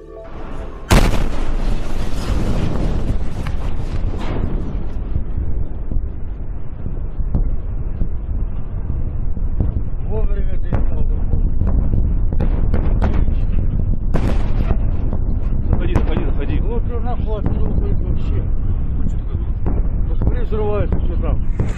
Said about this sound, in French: vous entendez ces explosions qui ne sont pas celles issues d'une scène de guerre, mais qui sont l'explosion d'un météore dans le ciel de Russie